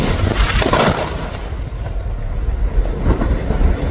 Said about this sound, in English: Well, that was the sound of an Israeli strike on a building in one of the largest cities in the country, Tyre.